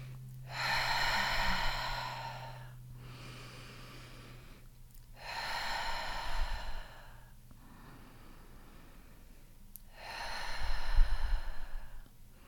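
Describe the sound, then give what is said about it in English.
Slow, deliberate breathing, in through the nose and out through the mouth: three long, airy breaths, each followed by a quiet pause, with a faint steady hum beneath. “We're going to breathe in through our nose and out through our mouth a few times.”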